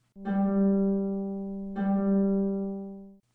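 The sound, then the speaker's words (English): Guitar with its open third string plucked to sound a G note, struck twice about a second and a half apart. Each pluck gives a clear, ringing mid-pitched tone that sustains and slowly fades, with no voices. “He plays the open third string of his guitar, a G note, frequently throughout the song. It sounds like this.”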